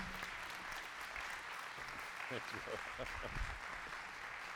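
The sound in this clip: A church audience in Alabama applauds steadily to welcome a guest preacher, the dense clapping continuing throughout at an even level while a voice speaks over it.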